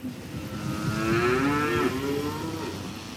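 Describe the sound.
Cows mooing during milking: a single long, low, loud moo that swells through the middle and then eases off, heard alone.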